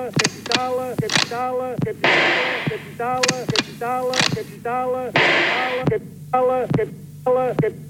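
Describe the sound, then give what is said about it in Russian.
Two gunshots ring out as sharp, loud bursts with rough noisy tails, about three seconds apart, while voices speak in the gaps around them. “Kamrat Rosa Luxemburg, två skott. Comrade Rosa Luxemburg, two rounds.”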